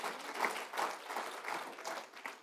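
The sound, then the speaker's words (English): A church audience applauds during a sermon, faint and uneven clapping that swells and dips in several loose waves rather than holding a steady level. “That ought to give you, it deserves an applause, isn't it?”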